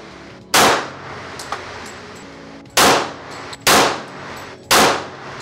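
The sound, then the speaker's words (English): Four loud gunshots at a shooting range as a shooter aims at the head of a target, each a sharp crack with a ringing decay; a longer pause follows the first, then the last three come in quicker succession. “We're doing close-ups now where he's aiming for the head of the suspect. Gun shooting with me.”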